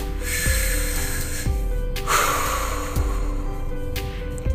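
Deep, slow breathing during a guided meditation: long, airy breaths drawn in and pushed out one after another, fairly loud and unhurried, with a low steady tone and soft periodic thumps underneath and no talking.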